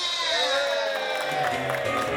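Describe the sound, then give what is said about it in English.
Audience cheering and applause for a performer, a dense, steady wash of clapping and crowd noise with a few high whoops, sustained throughout. “Everybody, give my partner a round of applause.”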